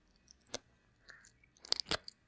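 Crunchy chewing and biting while eating a large ice cream, heard as a few sharp, faint bites with softer munching between them, and no talk.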